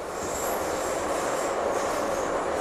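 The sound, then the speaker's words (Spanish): A Bilbao metro train runs with a steady, loud rumble and a thin, high wheel squeal riding over it, with no voices. “En 1995 en Bilbao se inaugura el metro.”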